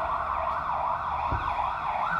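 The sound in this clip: An ambulance siren wails with its pitch sweeping up and down in repeated smooth cycles. The tone stays steady and fairly faint, with no voices.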